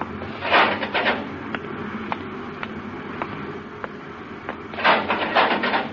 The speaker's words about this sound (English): Open the inner hatch, Happy.